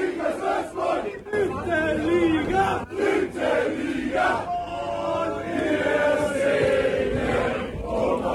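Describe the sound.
Football fans celebrate promotion after a relegation playoff match, a loud crowd roaring, cheering and chanting together in a sustained wall of voices that swells and dips.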